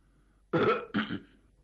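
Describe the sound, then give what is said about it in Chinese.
A man clearing his throat, two short, rough bursts of moderate loudness, the second briefer, with quiet before and after. “张作霖一看人都来得差不多了，清了清嗓子”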